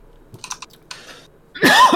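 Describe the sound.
A single harsh cough from someone with a popcorn kernel stuck in the back of the throat. It bursts out loudly at the end after a quiet start.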